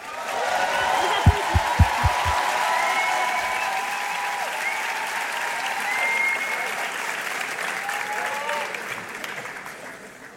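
Audience applause welcomes the band Sarab onstage at the Prix Joséphine, a long, steady wash of clapping with whistles and cheers rising above it, easing slightly toward the end.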